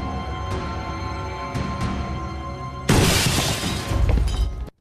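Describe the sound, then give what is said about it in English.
Kitchen window glass shatters as a thrown brick crashes through: a sudden, loud burst of breaking glass that keeps crackling and tinkling for a couple of seconds before cutting off. “The kitchen window has been put through, and a brick lies on the floor amongst shards of glass.”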